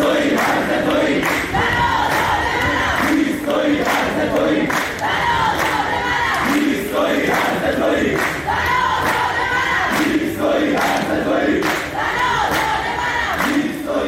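University students at a protest in Babol, Iran, chant loudly together as a crowd, with a steady driving rhythm of repeated shouted phrases that continues without a break.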